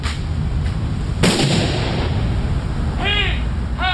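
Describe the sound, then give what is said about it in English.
A rifle volley fired by airmen as part of military funeral honors: one loud, sharp crack near the middle with a decaying rumble, set against a steady outdoor background. “As part of the military honors, airmen fired off a trio of rifle volleys.”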